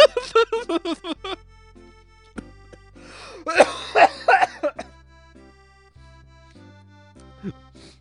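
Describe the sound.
A person chokes and coughs while reading aloud: rough, spluttering bursts at the start, then a louder cluster of harsh coughs, heard over low, sustained musical tones.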